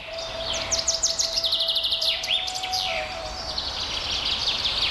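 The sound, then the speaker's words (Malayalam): A black-hooded oriole sings in a continuous run of rapid, high chirps and quick whistled phrases over a faint steady hum. “മഞ്ഞക്കറുപ്പൻ പലതരത്തിൽ പാടാറുണ്ട്.”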